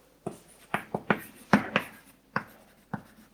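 Pen or marker strokes on a board during a maths lecture, sounding as a quick series of sharp scratches and taps with short pauses between them, with no talking.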